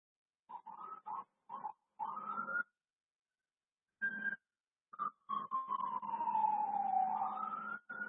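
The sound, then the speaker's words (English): Police sirens sound outside: first a run of short choppy tone bursts, then a long wailing tone that sweeps down and climbs back up. The sirens are fairly faint and play without any talk. “I can hear some police sirens.”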